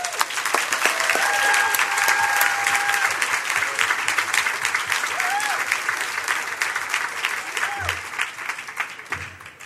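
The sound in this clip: An audience applauds to welcome the keynote speaker at an evening event, with dense, steady clapping that holds strong for the full length and tapers only slightly at the end.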